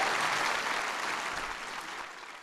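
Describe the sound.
Applause from a crowd: dense, steady clapping that stays loud throughout and tapers slightly toward the end, with no voices over it.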